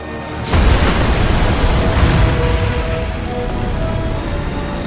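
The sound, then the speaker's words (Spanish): A factory with a glass roof explodes after a grenade lands beside bombs in the 2017 Wonder Woman film. A sudden loud blast gives way to a heavy, sustained rumbling roar that lingers to the end. “Lanza una granada que atraviesa el tejado de vidrio de la fábrica y cae junto a unas bombas. El edificio vuela por los aires.”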